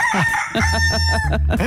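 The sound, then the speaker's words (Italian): A neighbour's rooster gives one loud, raspy cock-a-doodle-doo. The crow is strained and wavering and lasts under two seconds. “sento il gallo del mio vicino, che tra l'altro è in super forma, inizia a cantare, a rompere gli zebedei a tutti.”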